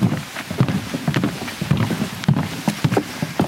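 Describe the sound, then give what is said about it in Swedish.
Footsteps on a half-metre-wide wooden plank walkway laid over very wet marshland in an autumn forest near the Polish border village of Jabłówka, on the Poland–Belarus border. The steps land as many hollow, rhythmic knocks. “Vi går på en halv meter bred träspång som är utlagd över den mycket blöta sankmarken mitt i den lätt höstfärgade skogen vid den polska gränsbyn Jabłówka.”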